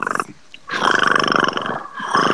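Cats make a loud, throaty, pulsing rumble like a deep purr with a raspy, roar-like edge, in a few bursts separated by short gaps.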